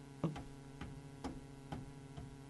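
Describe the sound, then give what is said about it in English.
A clock ticks nearby with five faint, regular ticks about half a second apart, over a low steady hum. “there's a clock ticking nearby.”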